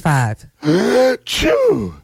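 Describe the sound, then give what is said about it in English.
An exaggerated, strongly voiced sneeze from spring allergies: tonal gasping intakes, then a burst of breathy noise with a wavering vocal release, loud and on its own. “Oh no, not the sneezing again.”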